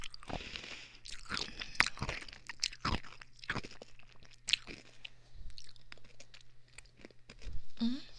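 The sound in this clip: Crunchy food being bitten and chewed in many quick, uneven crunches and crackles, fairly faint overall with a few sharper bites. A brief voice comes in near the end.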